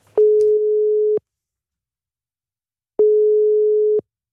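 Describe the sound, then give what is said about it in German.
Telephone ringing tone while placing a call to a Swiss municipal office: two steady one-second beeps of a single mid-pitched tone, separated by a silent pause of almost two seconds. “Um das herauszufinden, hat Fabio Flepke direkt angerufen, und zwar auf die Gemeinde bei der Präsidentin, der Samantha Garbani-Nerini.”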